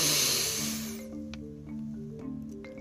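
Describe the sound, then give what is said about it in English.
A deep inhale during a guided meditation: a soft, breathy rush lasting about a second that fades into quiet sustained tones. “Take a deep inhale”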